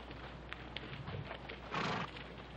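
A calico horse gives a short, faint whinny near the end, preceded by a few soft, scattered hoof clops.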